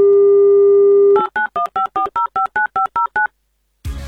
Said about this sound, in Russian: Итак, звоним уважаемому Сергею.